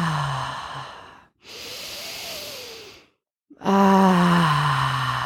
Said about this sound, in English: let's just start by taking three nice deep cleansing breaths. This is in through your nose, out through your mouth.